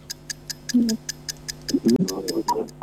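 A quiz show's countdown timer ticks steadily at a quick, even pace over a faint, constant low hum, with a few brief murmured sounds between the ticks.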